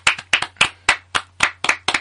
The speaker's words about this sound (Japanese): パチパチ。